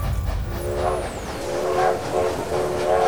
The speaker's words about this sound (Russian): Звуки моего детства. Гудки, шум поездов.